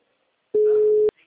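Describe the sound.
A telephone busy signal: one steady, mid-pitched tone holds for about half a second, breaks off, then starts again briefly at the very end.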